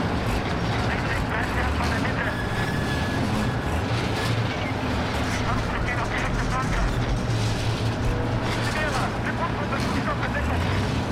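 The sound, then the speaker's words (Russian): Tank engine roaring as the tank turns 90 degrees and drives along infantry trenches in a battle scene among burning tanks: a loud, continuous, heavy mechanical rumble with low drone and rattling clatter throughout. “Перед и за окопами 4-й роты застыло несколько танков. Один из танков разворачивается на 90 градусов, едет вдоль окопов в сторону левого фланга.”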